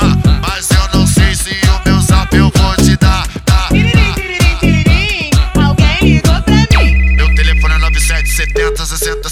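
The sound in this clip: Electronic telephone ringtone melody, a repeating high chirping pattern over a sustained bass, enters after a stretch of loud, punchy music with a heavy pounding beat.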